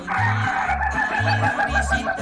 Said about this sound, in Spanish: El único gallo que no quiquiriquea, no cacaraquea, sino que se ríe, le toca la cresta y óigalo.